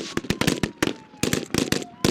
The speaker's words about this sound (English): Suddenly, shots fill the air. It's a mock terrorist kidnapping of a government official.